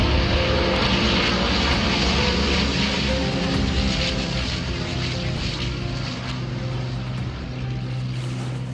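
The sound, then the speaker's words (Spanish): An airplane takes off with a loud, steady roar of engines and a broad rushing drone that holds throughout and eases slightly toward the end, with no voices over it. “Finalmente despegamos rumbo a Madrid.”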